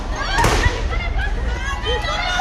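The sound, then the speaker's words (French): Police fire tear gas grenades at a high school student protest: a sharp burst and a low thud stand out over a busy wash of crowd noise and voices. “deux bouteilles en verre sont jetées sur les policiers derrière. qui, pour répliquer, tire des grenades lacrymogènes.”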